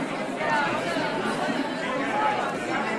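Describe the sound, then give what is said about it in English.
Crowd chatter fills the opening of the Sonic Acts event at Looiersgracht 60, with many overlapping voices forming a dense, steady murmur that never breaks into silence. “Yeah, let's hope it's not too noisy. That would be annoying. Yeah, well, it's quite a crowd.”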